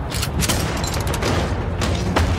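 Gunfire in a video game combat scene, with spent shells flying off in low gravity: a few sharp bursts rise over a dense, steady background of noise.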